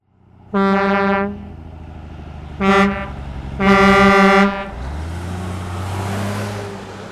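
An oversized tanker truck sounds three loud, brassy horn blasts over a low engine rumble. The first and last blasts are long and the middle one short. The horn then stops and the deep engine drone carries on alone.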